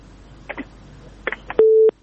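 A telephone line after a call is disconnected gives a few short blips, then a single steady tone that holds briefly before cutting off.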